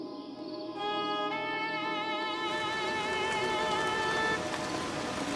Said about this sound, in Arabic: جاء المطر. الشكر لرب بلعام. المطر وفير